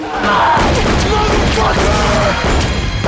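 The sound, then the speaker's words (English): A few loud handgun shots fired during a creature attack, booming blasts set within a dense, rumbling action soundtrack that stays loud throughout. “A creature bites at Duke. His machine gun fails. He uses his handgun.”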